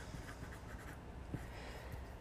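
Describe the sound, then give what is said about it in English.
Handwriting strokes scratch faintly as something is written down, a few soft scraping marks rising just above a steady background hiss. “I'm going to write this down.”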